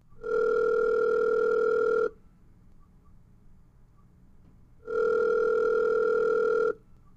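A telephone line gives two long, steady electronic tones as a call is dialed. Each tone lasts about two seconds, with near-silence between them.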